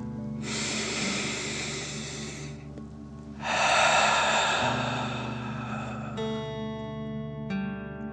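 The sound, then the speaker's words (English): A slow, deep breath in and then out as part of a calming children's bedtime relaxation exercise, two long, soft, airy rushes separated by a short pause over quiet, sustained tonal music that continues alone at the end. “Ready? Okay. Deep breath in and out.”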